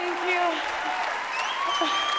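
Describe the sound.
Standing ovation at an awards ceremony as an audience applauds a winning actress, a continuous wash of clapping held under a person talking over it.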